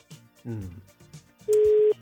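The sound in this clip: A single telephone ringback tone sounds on an Italian line as a caller waits for a surprise birthday call to be answered. It is a flat, steady, mid-pitched beep of about half a second, following brief talk.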